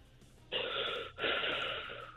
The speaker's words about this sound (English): Sounds like she's toking. You right just now. Took a hit, didn't you?